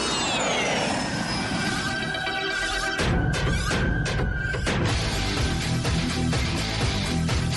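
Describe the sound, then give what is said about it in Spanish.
Airplane flying past, as a sound effect: a jet-like whine that sinks in pitch, then a louder rushing roar with rough surges for the remaining seconds, without talk. “Listo, cogemos otro avión a ver dónde aterrizamos.”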